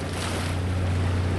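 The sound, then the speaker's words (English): Water from waves pours in over a port at high tide on a sinking coastline in Kesennuma: a steady, moderate wash of water with a low hum beneath, and no distinct breaking waves. “what you just heard were waves actually pouring in over the port.”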